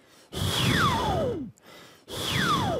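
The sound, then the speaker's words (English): Wind-like breath blown out while the mouth changes shape, given as two long, airy exhales. In each, a whistling resonance glides steadily downward in pitch, and a short quiet gap separates the two. “I breathe out while trying to change my shape of the mouth so that I can like practice my like mouth changing shape and also like the breathing out technique at the same time.”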